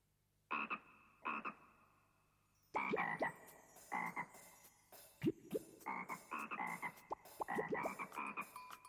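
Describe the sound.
A frog croaks in short, raspy pulses: two isolated calls at first, then a rapid, uneven run of many croaks, fairly faint overall with no other sounds.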